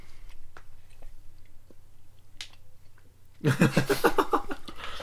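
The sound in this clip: Chewing of food dipped in a sauce that tastes like old soy sauce: faint, sparse mouth clicks and crunches at first, then a sudden louder, denser stretch of wet chewing noise near the end.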